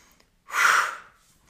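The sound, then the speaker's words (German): A single deep breath during an exercise routine of squats and rising onto the toes, heard as one sharp, loud, breathy rush of air lasting about half a second, alone. “Also atmet jetzt tief ein und dann wirklich bewusst ausatmen.”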